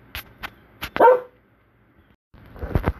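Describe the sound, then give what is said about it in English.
A dog barks in the background: a few sharp yips and a longer, drawn-out bark, then a pause and another burst of rough, overlapping barks. No voices are heard. “And that is my dog in the background adding to our podcast.”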